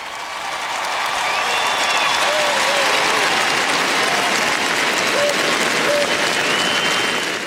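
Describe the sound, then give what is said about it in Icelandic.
Crowd cheering and applauding loudly as members of a royal family appear on a palace balcony; dense, sustained clapping and shouting hold at a steady, loud level from start to finish. “var fagnað ákaft en mestu fagnaðalætin heyrðust þegar Sonja drottning kom út á svalir.”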